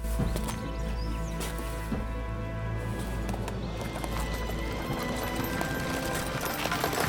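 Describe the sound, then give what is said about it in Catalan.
Hooves clip-clop steadily as a horse pulls a cart along a path toward a convent, giving an even, rhythmic run of hoofbeats throughout. “Luc condueix el carro pel camí del convent.”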